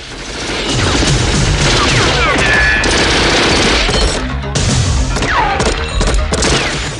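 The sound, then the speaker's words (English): Gunfire is exchanged through a ground-floor glass window in an action scene. Loud, dense bursts of rapid shots mix with crashes and booms, continuous for the whole clip. “Arya shoots at John through a ground floor window. John shoots back.”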